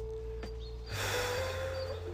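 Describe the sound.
A slow breath drawn during a guided relaxation exercise: a soft, airy rush that starts partway through and carries on to the end over a faint, steady hum.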